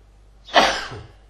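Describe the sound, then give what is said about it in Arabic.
A single sneeze erupts during a lesson on Arabic grammar. It is a sharp, breathy burst that peaks quickly and tails off over about half a second against a quiet background. “الحمد لله يرحمك الله.”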